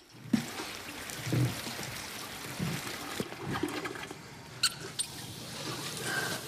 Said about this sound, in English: Hot water runs into the bath. Steam rises.